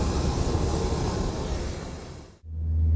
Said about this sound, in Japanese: イスラマバードの空港今離陸しましたこのままカブールに向かいます